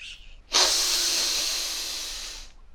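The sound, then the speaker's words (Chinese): A deep breath drawn in during a guided children's meditation: one long, steady, breathy hiss lasting about two seconds, louder at its start and easing slightly toward the end, with no voices. “来，和你的师傅一起深深的吸一口气吧，”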